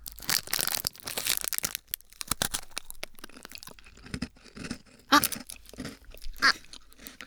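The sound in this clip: Crunchy bites and chewing of a butter cookie, later found spicy: a run of many loud, sharp crackling crunches followed by softer, irregular munching, with no talking.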